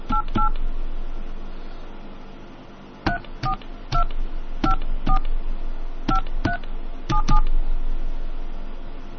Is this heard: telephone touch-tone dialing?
yes